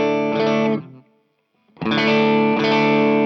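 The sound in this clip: Electric guitar with P90 pickups played through an amp set clean rings out in full, sustained chords. After a short silent gap, a few more loud chords follow.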